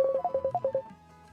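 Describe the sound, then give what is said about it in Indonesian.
Electronic phone tones as an incoming WhatsApp call rings and connects: a rapid, even run of about eight short beeps at a steady pitch, then quiet. “Sebentar untuk telpon WA-nya siapa ini. Oke, coba kita terima dulu, bisa tersambung tidak?”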